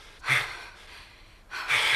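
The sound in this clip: Heavy breathing from a man pacing in a circle: two loud, breathy, hissing breaths separated by a quieter pause.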